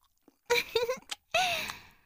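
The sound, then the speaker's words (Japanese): A baby gulps and drinks milk: a few wet, smacking swallow sounds with short voiced tones in separate bursts, moderately loud against a quiet background. “おいしそうに飲んじゃった。ごくん、ごくんって飲んでる。”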